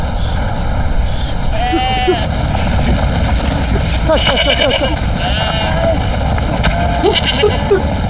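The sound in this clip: A frightened flock of sheep bleats repeatedly, with many overlapping wavering calls rising over a loud, steady roar of aircraft noise that continues throughout.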